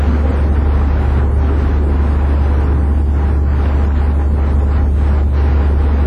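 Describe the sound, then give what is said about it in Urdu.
An electric fan running at its lowest speed to cool hot children gives a loud, steady, unbroken whir over a heavy low hum, with no change throughout. “بچوں کو گرمی ہو رہی ہے, ایک ایک number پنکھا کھول دو, جانے جانے ایک سے زیادہ نہیں کھولنا چاہے آدھا کھول دو.”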